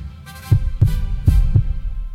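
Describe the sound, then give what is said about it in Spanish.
A heartbeat sound effect gives two low, thumping double beats in an even lub-dub rhythm over a faint steady hum, with no voices. “El latido de un corazón orgulloso.”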